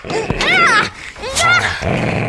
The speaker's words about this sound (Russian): На меня накинулась собака.